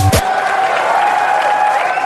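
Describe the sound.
A baseball crowd cheers a Nelson Cruz home run in a Twins game: a loud, steady roar of cheering and applause with no break.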